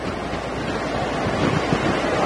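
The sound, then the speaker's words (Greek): Strong wind gusts above 12 Beaufort sweep across a wildfire front near Agia Paraskevi in southern Rethymno, Crete, giving a steady, loud roaring rush with low buffeting rumble that swells slightly toward the end, with no voices. “οι άνεμοι ξεπερνούν τα 12 μποφόρ. Αυτές οι ρηπές που βλέπετε τώρα και μας μετακινούν κυριολεκτικά σίγουρα ξεπερνούν τα 12 μποφόρ”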